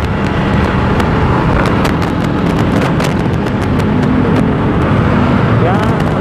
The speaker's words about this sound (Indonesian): kantor Bank BTN cabang Kebun Jeruk yang berlokasi di sini di Jalan Panjang itu ada putar balik kendaraan ramai lancar